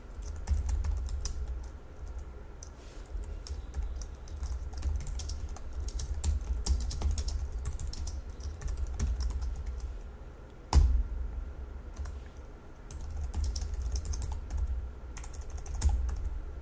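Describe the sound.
Typing C# code on a computer keyboard: many quick, light keystrokes clatter in an uneven but continuous stream at moderate volume, with one sharper, louder clack near the end and no voices.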